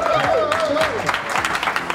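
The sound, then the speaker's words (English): Audience applause, a bright, busy patter of many hands, with a voice speaking over it during the first second before the clapping carries on alone. “Let's have another little round of applause.”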